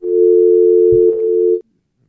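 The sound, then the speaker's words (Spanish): A steady, single-pitched telephone tone for an incoming call, loud and unbroken for about a second and a half before stopping abruptly. “Tengo una llamada, profesor. Hay una llamada”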